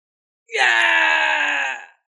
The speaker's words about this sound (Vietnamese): Một người kêu thảm thiết